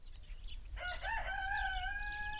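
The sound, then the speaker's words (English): A rooster crows once outdoors on a quiet ranch, a single loud call with a choppy start and a long, sustained high tail, over a low steady background rumble. “Outdoors on Dudley's quiet ranch, except for that rooster, it felt as though the entire landscape had seized the right to remain silent”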